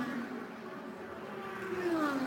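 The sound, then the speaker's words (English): Race car number 83 spins after getting loose exiting turn two, a sustained engine whine over constant track noise, its pitch sliding downward toward the end. “Oh, we have a car spinning, and that's Kimball.”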